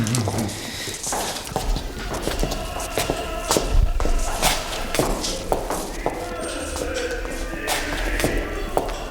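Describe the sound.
Footsteps climbing a staircase, a continuous run of uneven thumping steps over a noisy background that carries on through the whole clip.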